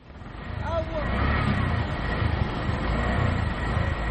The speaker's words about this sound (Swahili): Unasikia hapo magari, trela za kubeba mizigo.